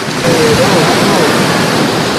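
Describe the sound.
Ocean waves wash over a beach where newly hatched sea turtles are being carried out to sea, a steady, loud, continuous roar of surf with no distinct breaks.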